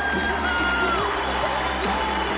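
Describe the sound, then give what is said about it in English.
A crowd cheers, whoops and shouts in a steady roar as a performer is welcomed to the stage. “I want you to put your hands together and welcome him to the stage. Big round of applause.”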